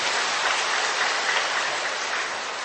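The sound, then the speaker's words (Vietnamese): Dense, sustained applause from an audience at a group exercise, an even wash of many clapping hands at steady loudness that tapers slightly at the end, with no talking. “Rồi chúng ta cho tràng pháo tay thưa anh chị em.”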